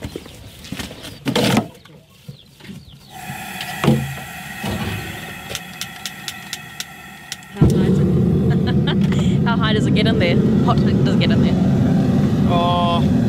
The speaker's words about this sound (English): LPG powered gas forge or furnace. And we just put our shoes in there and crank the gas bottle up and heat them up.